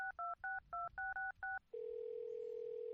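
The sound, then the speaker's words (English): A telephone dials a number with a quick, even run of touch-tone beeps, then a steady, continuous tone. “All right, so let's try calling.”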